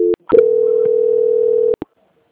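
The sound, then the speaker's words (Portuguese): Steady telephone dial tone after a dropped call: a short tone and a click come first, then one continuous hum holds for over a second and ends in sharp clicks and a brief blip before silence. “caiu a ligação”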